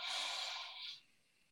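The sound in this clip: A deep inhale during a guided breathing exercise: one faint, breathy hiss of drawn-in air that trails off toward the end.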